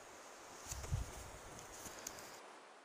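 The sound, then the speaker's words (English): Soft wind rushes through treetops at the base of the Chisos Mountains in Big Bend, a faint, steady hiss with a few light rustles and soft low bumps near the start. “The Chisos Mountains are straight above me now. I'm basically at the base of them. They're blotting out the sun. The wind through the tops of the trees is pretty much the only thing I can hear.”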